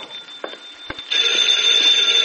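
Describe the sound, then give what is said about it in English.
A telephone bell rings, a loud, sustained metallic jangle that starts abruptly after a few faint knocks and carries on steadily to the end, with no talking over it. “Get the phone, Johnny, will you? I don't feel like wheeling myself over to it.”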